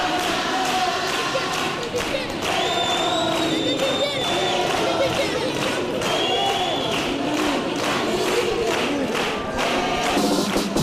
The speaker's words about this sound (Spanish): esta rumba de la pelotera, bueno, pues así está siendo recibida por el público.